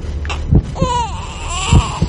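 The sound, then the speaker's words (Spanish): An infant crying in a couple of wavering, high-pitched wails, with soft low thumps between them; the sobs rise and bend in pitch and come in short bursts. “¿Se oye un bebé? Sí, de momento se oye un bebé”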